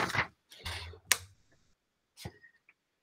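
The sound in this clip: Pages of an old, fragile 1996 Funcoland newspaper being turned carefully by hand: a few crisp, papery rustles and crinkles with one sharp snap, then a quieter rustle after a short pause.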